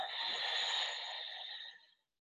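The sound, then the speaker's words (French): Ujjayi breath exhaled through the nostrils during yoga breathing practice: a soft, steady, hissing rush of air that holds evenly for about two seconds and then stops. “mais cette fois-ci, Ujjayi uniquement par les narines. On inspire ensemble. On stabilise, poumon plein. Et on expire.”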